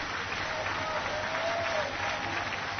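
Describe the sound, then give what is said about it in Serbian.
Applause from the audience at a jazz concert at Kalemegdan as a song finishes the show. Dense, even clapping carries on at a fairly soft level for the whole clip. “Poseban aplauz za zbilja posebnu pesmu koja živi iz veka u vek, ne gubeći sjaj.”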